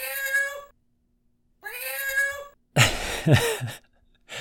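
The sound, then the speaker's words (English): A human voice imitates a cat meowing, giving two drawn-out, tonal meows separated by a pause, then a harsher, noisier burst of yowling sounds toward the end. “I mean, it's not fake. It's a human. But it's a human pretending to be a cat.”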